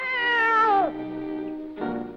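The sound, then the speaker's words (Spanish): A cat meows twice: a long, loud call that slides down in pitch, then a shorter second meow. “De hecho, se oye como un... gato real.”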